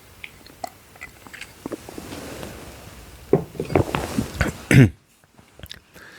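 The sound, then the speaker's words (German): A speaker takes a quick sip of a drink: soft mouth clicks and faint slurping build to one louder gulp, followed by near silence. “Entschuldigung, muss einmal kurz einen Schluck trinken.”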